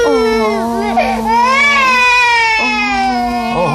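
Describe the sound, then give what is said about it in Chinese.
A hundred-day-old baby cries steadily in a high, strained wail with strong overtones. The pitch wavers and rises slightly, with brief catches between breaths near the end. “不哭不哭， 怎么又哭了？”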